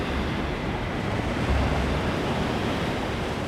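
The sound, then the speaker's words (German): Steady wind of a heavy snowstorm driving swirling snow: a continuous, dense rushing roar that holds an even loudness throughout, with no voices or other distinct sounds. “der Sturm trieb ihnen die Schneewirbel entgegen, sodass sie kaum noch sehen konnten.”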